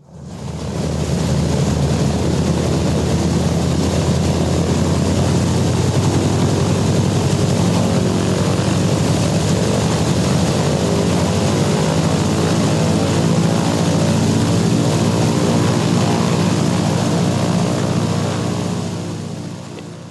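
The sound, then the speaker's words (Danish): Loud, steady propeller drone of a Douglas C-47 Skytrain transport plane's engines, a dense continuous roar with a deep throbbing hum that holds unbroken for the whole stretch. “Der kravler de op i C-47'erne. Det er nogen, der hedder Douglas Skytrain transportfly, som var ret brugt på det her tidspunkt. Og sådan en skal vi høre, hvordan den lyder.”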